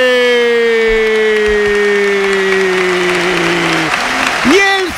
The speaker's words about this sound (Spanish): de Valencia se pone en pie para aplaudir evidentemente el esfuerzo local, pero también para aplaudir el golazo de un chico que tiene algo especial